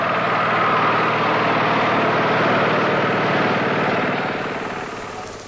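A vehicle engine drones steadily as the vehicle drives off, a loud, even rumble that fades slightly toward the end.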